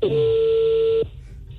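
A telephone number being dialed: a single steady electronic tone, held for about one second, then cut off abruptly to near silence.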